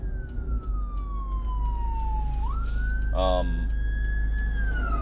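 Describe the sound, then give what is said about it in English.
An emergency vehicle siren wails as it passes, its tone sliding slowly down and then back up, with a brief burst of a different tone partway through. “emergency vehicle coming.”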